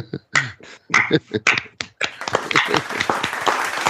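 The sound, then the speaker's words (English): Slow clapping: a few spaced, crisp hand claps at an unhurried pace that quicken into denser, faster clapping through the second half. “is that a slow clap?”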